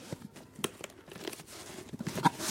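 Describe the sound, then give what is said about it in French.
Cardboard moving boxes being unpacked in a video game, with faint tearing and crinkling: several quick rustling rips and crunches in an uneven sequence. “Des cartons de déménagement. Je déballe.”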